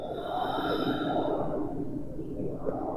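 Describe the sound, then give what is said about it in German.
A deep breath during a guided breathing exercise, a long, airy rush through the nose that runs steadily for about three seconds. “Atme tief ein und über die Nase tief aus.”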